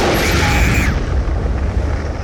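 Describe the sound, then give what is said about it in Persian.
Explosion shaking a wall: a loud, sustained, deep rumbling roar that fills the whole clip without a clear separate blast. “انفجار بعدی دیوار پشت سرمونو میلرزونه.”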